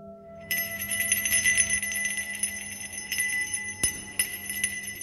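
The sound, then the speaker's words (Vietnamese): An old ancestral hand bell is shaken repeatedly, giving a sustained wash of bright, high ringing tones with constant jangling fluctuations. A sharper clang stands out near the end, with no voices. “Lão lúc này tự tin lắm, lão lắc chuông liên hồi.”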